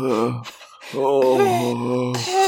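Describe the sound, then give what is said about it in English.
A voice imitates heavy breathing through the nose, like someone straining to hold something in. It comes as long, strained, voiced nasal hums with a short break between them. “they're doing the breathing, the heavy through the nose breathing”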